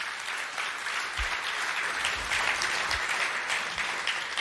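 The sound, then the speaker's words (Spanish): A church audience gives a round of applause to the Lord. The dense, steady clapping is fairly soft, with a few low thumps mixed in. “Dele un aplauso al Señor porque el plan de Dios was era perfecto.”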